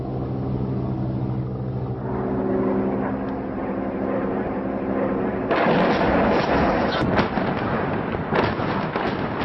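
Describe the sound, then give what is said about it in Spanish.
Airstrike on Syria: a droning aircraft engine rumble leads into a sudden loud blast from dropped bombs, then a rough roar with sharp cracks and bursts to the end. “Esos instantes en los que los aviones se acercan, los oyes, sueltan las bombas. Esos instantes de terror previos a la destrucción. Bueno, pues suenan así.”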